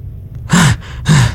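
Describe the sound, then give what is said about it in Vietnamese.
A sharp gasp and panting breath from someone jolting upright: two loud, quick gasping inhalations a fraction of a second apart, heard alone. “Trương Bình rít một tiếng, ngồi dậy, ngực phập phồng, liêm tiết thở hổn hển.”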